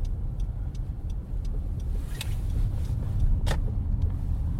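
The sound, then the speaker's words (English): A car drives along a street and turns around. A steady, low engine and road rumble is joined by faint, regular light ticks, with no voices. “Maybe we'll drive around to the other side.”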